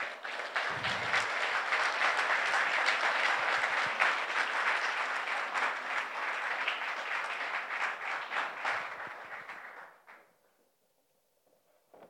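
A church audience applauds in sustained, dense clapping for about ten seconds, then the applause fades quickly into near silence.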